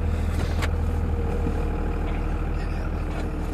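A farmer's vehicle drives through flooded Alexander County fields along rough, muddy gravel roads, its engine giving a loud, constant low rumble with no breaks.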